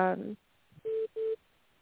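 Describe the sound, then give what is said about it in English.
An incoming call from a son sounds on a phone as two short, identical mid-pitched electronic beeps with a steady tone, after a brief bit of voice. “my son's calling me.”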